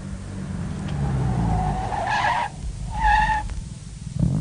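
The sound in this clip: A sports car brakes to a stop at a street corner, its tyres squealing. A low engine rumble runs throughout beneath two distinct high-pitched squeals in the second half, with no talk.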